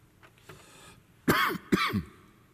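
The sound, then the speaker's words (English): Throat clearing from a tickle in the throat: two loud, harsh, rasping clears in quick succession, with a couple of faint throaty sounds before them. “So sorry, got a little tickle in my throat.”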